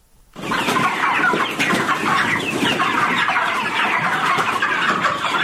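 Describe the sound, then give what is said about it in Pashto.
A dense chorus of thousands of broiler chickens fills a poultry farm in Kandahar's Dand district. Loud, continuous cheeping and clucking starts abruptly after a brief moment of quiet and holds steady throughout. “د کندهار په ډنډ ولسوالۍ کې د چرګانو د فارم کې 3,500 ماشيني چرګان ساتل کیږي”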